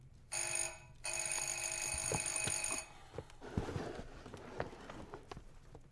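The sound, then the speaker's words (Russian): An electric doorbell buzzes harshly in two bursts, a brief ring then a longer one of nearly two seconds, followed by scattered soft thumps and knocks. “Звонок в дверь.”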